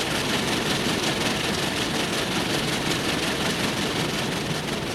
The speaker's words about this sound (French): le train roule, roule.